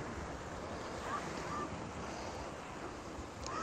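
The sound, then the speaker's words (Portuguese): Waves and a strong current at a beach where a river meets the sea, with the tide coming in. A dense, continuous rush of water and wind noise holds at a steady, moderate level throughout. “Correnteza bem forte ali. Eu não me peguei, eu estava entrando tão rápido. Olha a força dessa correnteza aqui.”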